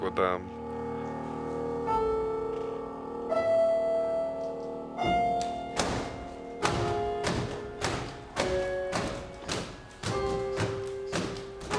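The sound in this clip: A drum beaten hard against a wall gives many loud, heavy thuds in a steady run through the second half, over sustained tonal notes that play throughout.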